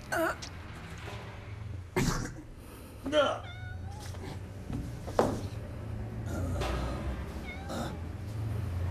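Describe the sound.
A cat meows a few times, short rising-and-falling cries over a low steady hum, while people speak and there are throat-clearing sounds.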